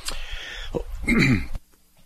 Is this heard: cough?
yes